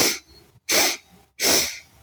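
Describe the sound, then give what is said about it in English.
Three short sniffing breaths drawn in through the nose during a breathing exercise. They come as sharp, hissing bursts evenly spaced with brief silences between, and no speech. “you're going to take three short little breaths in through your nose and one long breath out through your mouth”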